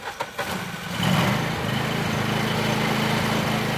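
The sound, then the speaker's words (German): A red-and-yellow ride-on lawn mower cuts long, overgrown grass. After a few faint knocks, its engine swells into a loud, steady drone that holds to the end. “Mit einem breiten Grinsen und strahlenden Augen sitzt er auf einem fahrbaren, rot-gelb leuchtenden Rasenmäher Stolz zieht der 25-Jährige seine Bahn.”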